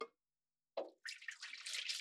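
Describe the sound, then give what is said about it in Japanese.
Hot water is poured out while preparing hand-drip coffee: a brief splash, then a steady pour of about a second, with a short tap at the very start. “一旦お湯を捨てます。”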